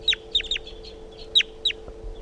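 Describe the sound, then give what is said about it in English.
A wild bird calls weakly, giving a few sharp, high, downward-sweeping chirps in short bursts with fainter calls between them, over a steady low hum. “Calling very weakly. Wild bird's flying now.”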